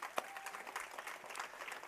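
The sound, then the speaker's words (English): Faint applause from a church audience honoring fathers on Father's Day during a morning service, a soft, steady patter of many hands clapping throughout. “And then I just want to say Happy Father's Day to all the dads out there, and give them a round of applause this morning.”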